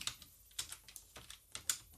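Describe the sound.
Faint typing on a computer keyboard, with many light keystroke clicks in an uneven rhythm and no talk.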